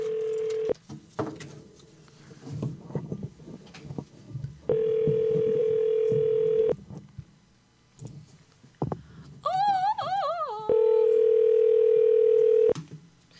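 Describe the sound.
Steady telephone tones sound while a call is being placed, coming in repeated bursts of about two seconds separated by quieter pauses. A brief warbling tone comes just before the final burst.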